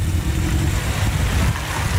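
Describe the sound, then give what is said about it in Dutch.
A car drives along a road through a riverside polder area, giving a steady low engine and road rumble with a broad, even hiss that runs unbroken throughout. “Een stukje rijden verderop.”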